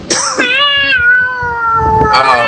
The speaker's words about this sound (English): I had a cat jump on my leg.